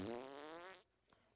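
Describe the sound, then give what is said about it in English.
A voice imitates a fart with a single short, buzzing blat that lasts under a second and then gives way to near silence. “That's a spiritual fart right there.”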